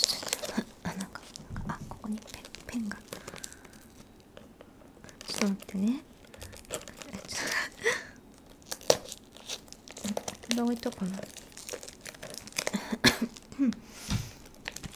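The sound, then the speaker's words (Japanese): Plastic packaging is opened by hand as its outer film is peeled off, giving many crisp crinkles and tearing rustles at an uneven pace while a person talks throughout. “まず早速開けていきたいと思うんですけど、ちょっと待って、ハサミ必要だった、開かない、ちょっと待って、”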